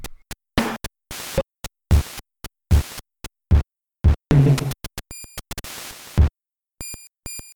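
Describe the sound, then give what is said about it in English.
A chiptune drum fill of many short, sharp noise bursts. Near the end, bright high-pitched ding tones made with periodic noise ring out between the bursts, and a last ringing ding sounds after the fill. “There's that high-pitched ding sort of sound you can hear near the end of the drum fill.”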